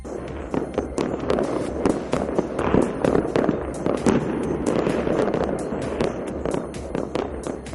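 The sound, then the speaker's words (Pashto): Celebratory gunfire shot into the air in Sanaa, Yemen, by armed group supporters: many sharp cracks and pops in dense, irregular bursts over a continuous rough background din, with no voices. “پایتخت سنا کې د دغه ډلې مرستیالانو په هوا کې ډزې کړې دي او خوشحاله یې نمانځلې دي.”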